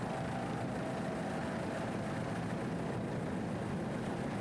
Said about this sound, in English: As we get a little closer, we can tell you that it's Merck Cruiser power, 2,500 horsepower Merck Cruiser inboards.